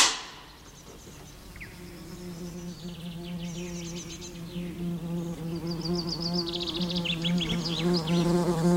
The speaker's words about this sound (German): Es ist Wespenhochsaison.